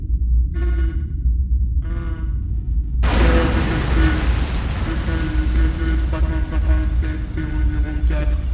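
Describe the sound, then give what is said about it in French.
An airlock explodes on a space station: a sudden loud burst erupts about three seconds in and turns into a dense, sustained roaring rumble. Two short harmonic tone bursts come before the blast. “Les sas ouest ont explosé 2 secondes, 3 secondes.”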